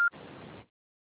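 An answering machine gives a single short, high electronic beep, followed by a brief burst of soft hiss, then silence.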